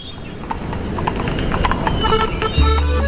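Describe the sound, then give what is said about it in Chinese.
Horse hooves clip-clop as a horse-drawn carriage carries passengers through Vienna: a steady run of many sharp knocks over constant background noise. “那我们这边呢，先上马车，然后我们前往下一站。”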